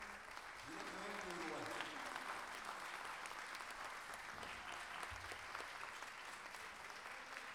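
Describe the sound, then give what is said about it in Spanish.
Audience applause at an international gala of payadores in Lo Prado, a continuous, dense clapping that lasts several seconds with voices briefly rising over it. “Cacho Artigas, por favor, y un aplauso para él”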